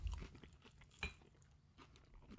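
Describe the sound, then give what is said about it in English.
Faint chewing of a sweet pickle bite dipped in ketchup, a few soft, wet crunches close to the mouth, with one sharper crunch partway through. “I can totally hear you chewing.”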